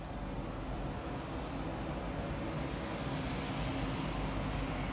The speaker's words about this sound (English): I'm just going to pause whenever I hear like a lot of vehicles passing so that it doesn't drown out my voice.